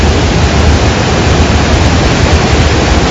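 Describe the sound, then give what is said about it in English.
Rushing water pours through the Gardner Dam spillway as a loud, steady, unbroken roar, a dense wash of noise with no distinct events and no voices. “that's the sound of water flowing through the Gardner Dam spillway. It's the first time that's happened in 6 years.”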